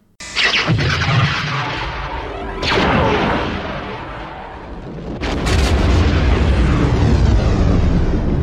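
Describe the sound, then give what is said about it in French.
Science-fiction superlaser blast from a space station weapon: a sudden loud, noisy boom swelling into a sustained roar, a second surge near three seconds, then a heavier, rumbling swell that holds to the end. “Comme vous venez de l'entendre, c'était le bruit de l'étoile de la mort dans la saga Star Wars.”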